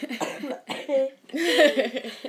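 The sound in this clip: A woman coughs during a conversation after running around fetching water: a few rough, voiced coughing bursts, with the last one longer and strongest.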